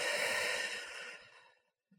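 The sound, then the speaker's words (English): A person breathes out slowly during a guided breathing exercise: one long, soft airy exhale that starts fairly strong and fades steadily to silence, followed by a faint brief breath at the very end. “And breathe in again and breathe out”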